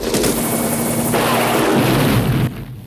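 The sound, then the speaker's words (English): Helicopter rotor roaring in a Rambo film scene as the chopper circles an enemy camp amid ground fire: a loud, sustained heavy thrum that cuts off abruptly near the end. “Russians and Viet soldiers return fire from the ground as Rambo circles the camp in the chopper.”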